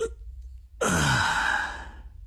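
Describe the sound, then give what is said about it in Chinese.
A long yawn from someone stretching after a stretch of letter writing: a breathy, voiced tone that begins abruptly, falls in pitch and trails off alone, with no talk over it. “听得见我打哈欠的声音吗？”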